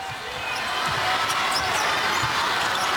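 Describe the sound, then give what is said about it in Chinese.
Basketball dribbled on court during a China versus Czech game: a few dull, low bounces thud beneath steady, loud crowd noise. “中队控球过半场， 杨舒宇， 对方应该是扩大防守面积的时候，直接打在了杨舒宇运球的手上”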